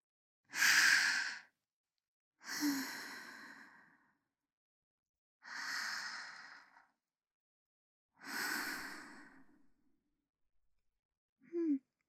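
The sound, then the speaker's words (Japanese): Slow, deep breathing during a relaxation exercise: four long, airy breaths spaced evenly several seconds apart, each swelling then fading like a sigh, quiet and alone, with a brief soft breath sound at the end. “息を吸って、まったりと体の力を抜いて、ほら深呼吸しよう。”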